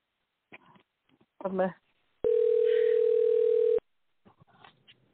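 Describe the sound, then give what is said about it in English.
A telephone call ringing out gives one long, steady, mid-pitched tone lasting about a second and a half. Short stretches of talk come before and after the tone. “let me see if Ruben picks up.”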